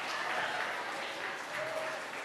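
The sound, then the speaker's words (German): Applause for five silver medal winners at an awards ceremony: a dense, steady wash of many hands clapping, fairly faint and even throughout, with no clear individual claps standing out. “Einen heftigen Applaus für die 5 Silbergewinner.”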